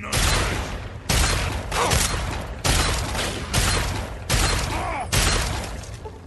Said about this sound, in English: I shot a cockroach, not realizing that the super mutant was literally right beside him.